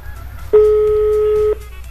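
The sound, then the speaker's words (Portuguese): Ringback tone of an outgoing telephone call, one steady electronic beep lasting about a second over faint background noise. “Ó, tá chamando. Vamos ver se ela vai atender, gente.”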